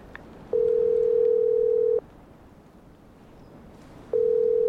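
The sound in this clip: Telephone tone as a call is placed: a steady single-pitch tone sounds in two long bursts separated by a pause, over a soft background hiss.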